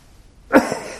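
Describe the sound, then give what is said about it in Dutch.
An aborted sneeze: a single breathy, gusty burst that builds and then trails off without the full sneeze ever arriving. “Komt hij nou of komt hij niet? Ja, soms heb je dat, hè? Ik moest even niezen, maar het lukt even niet.”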